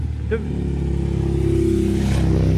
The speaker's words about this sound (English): Do you see this fella coming on the motorbike?